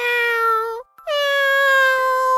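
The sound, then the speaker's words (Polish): A small, frightened white kitten caught in a thorny trap meows desperately: two long, loud, drawn-out cries with a brief gap between them, the first falling slightly at its end. “Dlatego siedział i miauczał rozpaczliwie, licząc, że ktoś go usłyszy i udzieli mu pomocy.”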